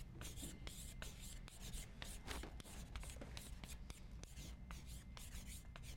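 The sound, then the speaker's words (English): Writing on a board during a lecture: many quick scratchy, rubbing strokes in irregular bursts, fairly faint and steady throughout. “I can't even write this. It's a long word.”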